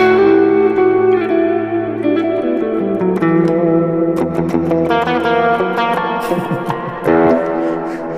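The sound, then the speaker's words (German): Clean electric guitar plays through a Roland Jazz Chorus amp. Loud, ringing chords and picked notes have a shimmering chorus effect and reverb, and the last strum near the end swells before fading. “Jazz Chorus. Den Roland Jazz Chorus. Ah, ja. Ah, Roland. Clean Sound, einfach unschlagbar, der Jazz Chorus.”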